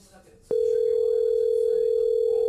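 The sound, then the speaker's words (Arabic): A telephone tone sounds as a call is placed: after a brief low murmur, a loud, steady single-pitched tone cuts in and holds without a break. “خلني اتصل ابو عبد الله.”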